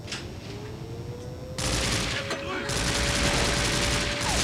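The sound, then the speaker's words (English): Machine gun firing in a video game: a dense, loud barrage of rapid shots kicks in partway through over steady game noise and keeps going without a break to the end. “A gnarly ass machine gun.”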